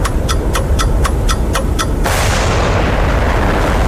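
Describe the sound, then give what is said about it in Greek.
Bomb explosion sound effect from the radio game Beat the Bomb: a string of steady, evenly spaced ticks gives way to a loud roaring blast that slowly fades. “Beat the bomb παίζουμε. Σταμάτα το χρόνο πριν σκάσει η βόμβα.”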